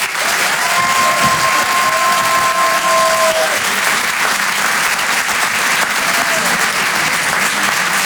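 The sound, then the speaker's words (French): Applause and cheers from a comedy show audience welcoming a comedian to the stage, a steady, dense wash of clapping that holds at an even level throughout. “Faites un maximum de bruit s'il vous plaît pour Antoine Donneau.”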